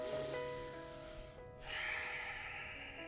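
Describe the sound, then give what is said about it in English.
A deep breath drawn in, a soft airy hiss that fades, pauses briefly, then swells again over a faint, steady sustained drone. “And inhale.”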